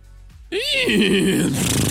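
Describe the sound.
A person imitates a horse neighing: one loud, quavering whinny that starts abruptly, arcs up and then wavers downward in pitch before ending in a breathy, noisy finish.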